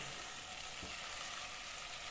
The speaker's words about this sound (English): I'm just giving that a good shove around the pan because it says to keep stirring it.